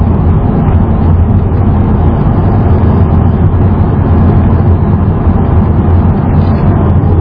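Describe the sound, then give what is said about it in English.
Loud, steady low engine and road rumble of a UPS delivery truck driving down a road in a wilderness area, unchanging throughout with no distinct pass-by. “you can see out here, even in the middle of the Wander Wilderness, there's a UPS truck going right down the road.”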